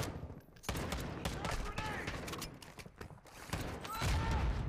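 Video game shooter gunfire during a fight inside a building: many rapid, dense shots and bursts crackle almost continuously, loud and overlapping, with a heavier low rumble building near the end.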